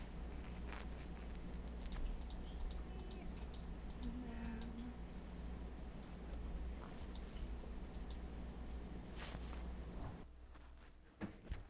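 Faint computer mouse clicks during a tabletop role-playing game's dice rolls: many sharp, irregularly spaced ticks over a steady low hum, with no talk.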